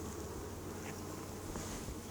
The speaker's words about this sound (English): And I've got a couple bees on my finger.